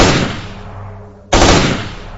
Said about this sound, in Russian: Через миг раздался хлопок пистолетного выстрела, а затем еще 2.